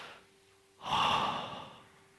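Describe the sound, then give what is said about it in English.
A single deep breath is drawn in, a soft airy rush that swells quickly, holds for about a second and fades, heard alone without talk. “So everybody, take a big breath right now.”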